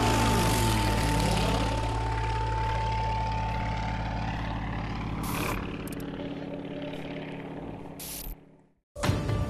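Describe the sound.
Propeller airplane flying in a pylon air race: a loud, rough engine drone whose pitch sweeps downward as it passes, then continues steadily.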